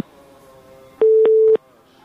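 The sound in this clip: A telephone tone sounds after a call is cut off: a single steady mid-pitched beep lasting about half a second, standing out clearly above a faint background hum.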